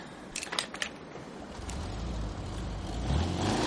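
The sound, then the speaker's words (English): A Waffen SS Kubelwagen military car leaves the Wald Hotel in Altgarten. A few sharp clicks come first, then a low engine rumble builds and grows steadily louder through the end. “A Kubelwagen of the Waffen SS leaves the Wald Hotel in Altgarten with two men inside.”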